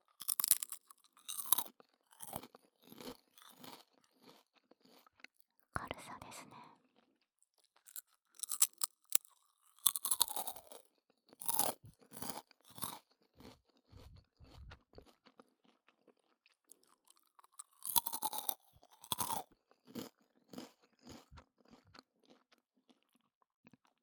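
Crisp crunching and chewing of a crunchy, low-calorie snack of about seven calories per piece, heard in many sharp, close bursts separated by short quiet gaps, with no talking.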